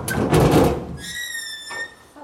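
A heavy container door is pulled open using the handles below it: a rough scraping rumble comes first, then a high, steady metallic squeal, ending with a brief creak.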